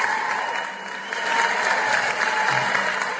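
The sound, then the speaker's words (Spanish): Applause: continuous clapping from a group, forming a dense steady wash that swells slightly midway and holds at an even, fairly loud level throughout with no talk. “Helmi, aplausos para él, por supuesto.”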